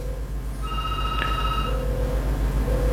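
A telephone rings as the host dials a listener to join a call-in show, with repeated steady ringing tones over a low, continuous hum.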